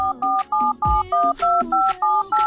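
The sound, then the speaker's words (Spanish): Telephone tones on a radio phone line as a call comes in, a rapid run of loud, evenly spaced two-tone beeps resembling keypad dialing, each short and crisp with brief gaps. “A ver, ya, ya tenemos llamada.”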